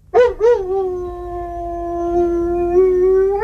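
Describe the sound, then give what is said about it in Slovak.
A dog howls in an apartment block, heard through the wall by neighbours. Two short yelping onsets lead into one long, steady, high-pitched howl that holds loudly to the end. “Mnohí z nás chovajú svojich psov v paneláku. Podľa niekoho tam vôbec nepatria. Najmä keď spoza steny susedia počujú toto.”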